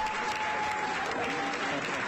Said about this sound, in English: At midnight on Monday, the Maryland General Assembly's annual session ended with applause and the traditional Latin phrase for adjournment.